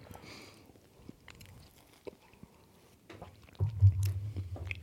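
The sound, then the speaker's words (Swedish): Chewing on an almond biscuit gives soft, faint mouth and crunching sounds at first, then louder, muffled low chewing over the final second or so. “Nu har jag lite mandelkubbe i munnen.”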